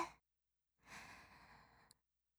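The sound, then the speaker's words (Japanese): A slow, deep breath drawn in during a guided breathing exercise. It is a soft, airy rush lasting about a second, alone and without talk. “深呼吸してみましょう。そう。ゆっくり息を吸って、”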